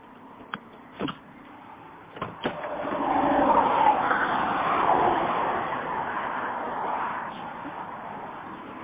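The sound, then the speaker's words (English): Traffic noise on a California highway near the 405, a broad, steady rushing roar that swells after a few sharp clicks and then stays loud and even. “It's loud out here on these California highways.”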